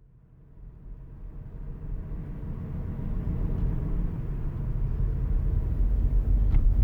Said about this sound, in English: Leif and I are driving through downtown Butte